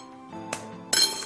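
A fresh egg cracked and added to well-mashed potatoes: two sharp hard taps, the second louder with a brief crackle of shell.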